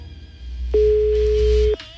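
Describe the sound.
A telephone busy signal on a call that goes unanswered: a single steady mid-pitched tone lasting about a second, sounding over a low hum, with nothing else heard.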